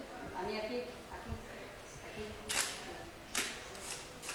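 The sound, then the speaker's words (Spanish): Camera shutter clicks as photos of a bride and groom are taken at a wedding: two sharp, brief clicks a moment apart over faint background talk. “A ver, están echando fotos a los novios.”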